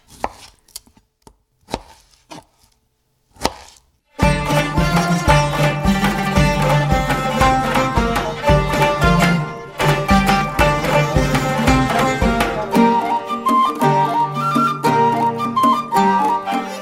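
Knife chopping limes during meal preparation, several sharp separate chops on a board, then loud music starts and continues to the end.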